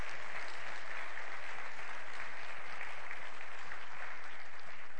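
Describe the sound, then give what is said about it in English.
Church audience applause for the children's ministry director: a dense, even wash of many hands clapping that holds steady for the whole stretch with no voices over it. “I want to say a thank you to Miss Yvonne. Give her a round of applause.”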